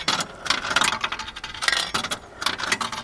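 Metallic clinking and rattling as a coin is dropped into a deposit vending machine that dispenses magnifying glasses, bright jangly taps coming in uneven bursts.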